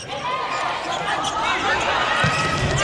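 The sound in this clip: A volleyball served during a match involving the Thailand team, a single firm ball strike near the end over a steady murmur of the arena crowd.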